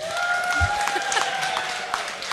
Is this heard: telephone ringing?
no